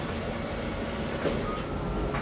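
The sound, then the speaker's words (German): A test train packed with measuring instruments runs along the track, giving a steady, continuous rail rumble and hiss at an even level throughout. “Vollgestopft mit Messinstrumenten geht der Versuchszug auf die Strecke.”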